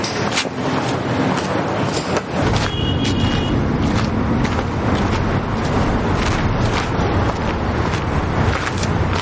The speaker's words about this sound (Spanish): Un coche se detiene junto a ellos.